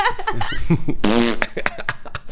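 A fart, one short buzzing, rasping burst, with laughter and giggling around it.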